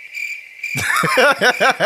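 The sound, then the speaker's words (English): A crickets chirping sound effect begins as a steady, high-pitched trill and is soon joined by louder, rhythmic warbling pulses. “crickets again?”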